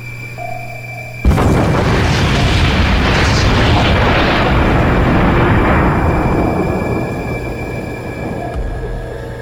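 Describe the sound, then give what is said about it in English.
A torpedo explodes against its target with a sudden loud boom. It swells into a heavy, sustained roar and rumble that lasts several seconds before easing off slightly. “That explosion has our ears ringing.”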